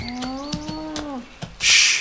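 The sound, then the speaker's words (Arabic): A low, drawn-out moo from a herd of cattle and bulls holds a bright, harmonic tone for just over a second and sags slightly in pitch at its end, among soft thumps, followed by a short burst of loud hissing noise. “ها هو القطيع.”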